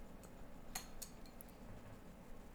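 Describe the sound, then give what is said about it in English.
Faint metallic clinks of a coin being flipped, with two brief ringing taps close together and a later softer tick against quiet background noise. “Well, flip that baby up if you could. I will call heads because you know call heads.”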